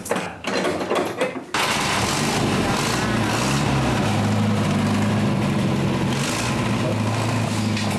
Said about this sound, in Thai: พร้อมกับสตาร์ทเครื่องโชว์แทบทุกคัน